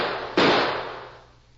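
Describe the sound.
A single gunshot cracks out during a shootout, a sudden loud report after near-quiet that fades slowly into a long, dwindling tail.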